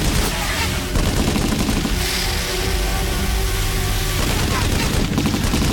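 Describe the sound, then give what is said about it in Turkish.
Gunfire crackles in rapid, dense bursts, many loud sharp shots running together into a continuous fusillade with slight rises and dips in intensity. “Ateş ediyorlar.”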